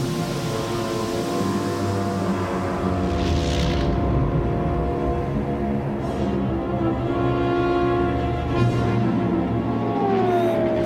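The Millennium Falcon spaceship landing on a landing platform in a Star Wars audio drama, a deep continuous engine roar with a steady hum that holds throughout.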